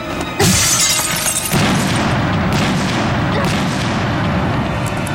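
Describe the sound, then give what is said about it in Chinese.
A bomb explodes with a sudden loud blast, then a second burst, followed by sustained roaring, rumbling debris noise that stays loud to the end; no voices. “不对，有炸弹，快躲！”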